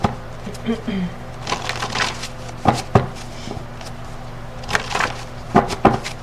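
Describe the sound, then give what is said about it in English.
An oracle card is pulled from a deck: a few crisp, papery snaps and slides, some louder than others, scattered across a few seconds. “Let me pull your transcendence card.”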